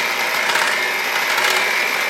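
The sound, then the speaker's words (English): An electric hand mixer whirs steadily as it mixes milk into a hot bowl of ingredients, a continuous buzzing motor tone with no breaks and no voices. “I'll grab my mixer. I'll start mixing that in.”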